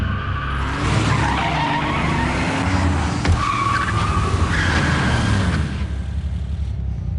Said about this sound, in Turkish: Direksiyonu düzelt. Araba kullanıyorum.